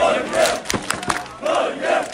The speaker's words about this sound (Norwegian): Det var full fest og stormende jubel i Oslos gater etter at Norge slo Senegal 3-2 i natt.